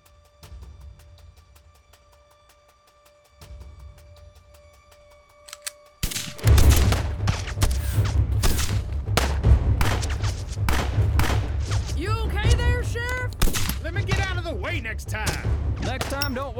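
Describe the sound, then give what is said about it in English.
Gunfire in a shootout, with a rifle among the guns, bursts in after a quiet opening: many sharp cracks over a heavy low rumble, loud and continuous, with voices speaking over the fire. “in the middle of a shootout.”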